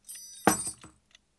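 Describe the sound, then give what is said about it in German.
Keys jangle as a kobold brings them: a short, bright metallic clatter of jingling bursts that settles into a faint lone clink. “Klar, und jetzt bringt Ihr Kobold Ihre Schlüssel.”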